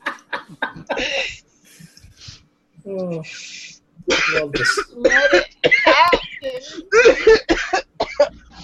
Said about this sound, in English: You all right? Cough it out, man.